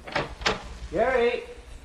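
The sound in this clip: A door opens and closes as someone heads outside: two brief, sharp clunks in quick succession, then a voice calls out.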